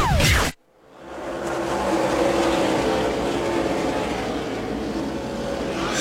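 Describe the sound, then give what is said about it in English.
Stock car engines roar around Darlington Raceway under the green flag. A brief loud burst cuts to near-silence, then a dense, continuous engine roar swells and holds steady to the end. “Back at Darlington Raceway, we continue under the green flag”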